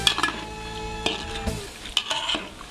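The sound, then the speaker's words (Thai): Pork fat renders in a pan over low heat with a soft, continuous sizzle, punctuated by several sharp clinks and scrapes of a utensil stirring against the pan. “เราจะเจียวมันหมูด้วยไฟอ่อนๆจนกว่าจะเริ่มสุกเหลือง”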